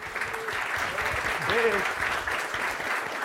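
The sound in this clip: An audience applauds to welcome a speaker at a regional conference, a steady, even patter of clapping hands with a voice heard over it.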